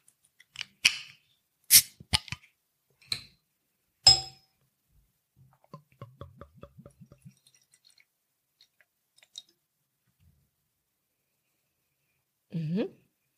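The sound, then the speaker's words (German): Glassy clinks from a West Coast IPA beer bottle being opened, then a quick, even series of soft glugging ticks as it pours, faint and spaced out against near silence. “Und Ja, dann würde ich sagen, mache ich die Flasche doch mal auf.”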